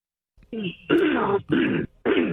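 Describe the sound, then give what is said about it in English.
Throat clearing in a few harsh, rasping bursts, loud and coming close together with short gaps between them, and no speech. “hold on a minute with the throat clearing”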